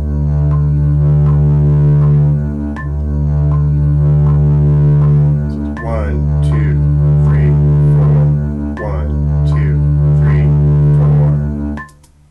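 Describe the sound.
Metronome clicking steady beat divisions under a sustained held tone that is restarted four times as whole notes. Each long note carries several sharp, evenly spaced ticks, and the sound cuts off at the end.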